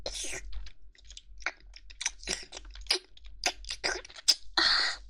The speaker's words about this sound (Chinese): 果然蒸了透，一下子就吸到嘴里了。